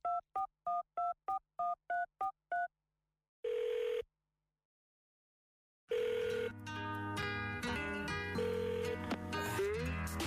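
A telephone number is dialed as a quick run of short touch-tone beeps, followed by a single longer tone. After a silent gap, a dense, loud mix of layered tones and music-like sound fills the rest.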